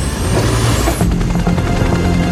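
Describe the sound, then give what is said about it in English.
A giant twin-rotor helicopter flies through valleys and rifts, a loud continuous roar with a dense rumbling low end and a fast pulsing chop that becomes more pronounced partway through. “They're a giant twin blade chopper flying through the valleys and rifts of Monster Island.”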